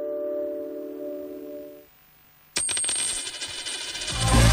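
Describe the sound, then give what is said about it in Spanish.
A one-euro coin drops with a sharp metallic clink after a steady electronic tone stops and a brief silence follows. The coin then rings and rattles, growing busier and louder toward the end. “¿Lo oyes? Es un euro que cunde.”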